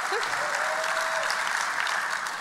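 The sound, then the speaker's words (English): An audience claps at a speech event, producing dense, steady applause that holds at an even level for the whole stretch without pauses. “Oh, clapping already.”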